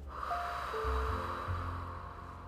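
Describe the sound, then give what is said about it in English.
Deep nasal breathing: two deep inhales drawn through the nose, followed by an exhale, as a breathing-exercise demonstration. The breaths are a soft, steady rush of air with faint tones underneath. “take 2 deep inhales, back to back through your nose, like this. And then exhale.”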